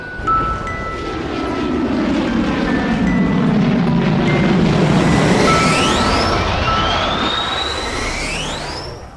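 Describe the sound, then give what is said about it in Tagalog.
An aircraft in flight, a broad roar that swells to a loud peak and slowly fades, with high whining tones sweeping up and down toward the end. “Ikaw lang magpapalipad sa Alpha 11.”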